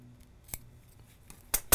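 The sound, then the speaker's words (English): Scissors snip to enlarge a cut hole, a few sharp, crisp clicks spaced apart over quiet background; the last two cuts come louder and close together. “I didn't cut this hole big enough here. Let's take care of that right now so you can see how this works.”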